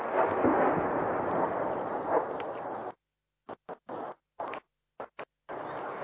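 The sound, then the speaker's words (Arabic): Artillery shelling pounds the Baba Amr district of Homs, a harsh, low-fidelity rumbling roar of blasts that gives way to a series of short, choppy bursts separated by abrupt silences. “إذن حمص، القصف مستمر.”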